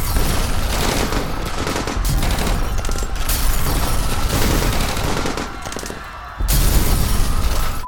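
Gunfire sound effect in an alley behind a restaurant: loud, dense volleys of rapid shots that run almost continuously, dip briefly into a quieter stretch, then burst back at full force.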